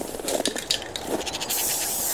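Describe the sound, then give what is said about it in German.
Spray paint from an aerosol can, used to mark shoe tracks, hissing in a steady airy burst that starts midway after a few brief scratchy handling noises. “Wie Sie sehen, benutze ich die Sprühfarben dazu.”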